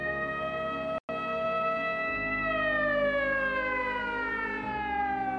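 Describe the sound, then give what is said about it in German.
An ambulance siren wails loudly as the vehicle drives up to a gallery, a steady harmonic tone that slowly falls in pitch, with one brief cut near the start. “Ein Krankenwagen fährt sie direkt bis vor die Galerie”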